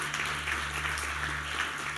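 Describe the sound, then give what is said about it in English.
A church audience claps in praise during a sermon. The steady, soft patter of many hands is quiet throughout, over a low, constant hum. “Give the Lord a hand clap of praise this morning for what he's done.”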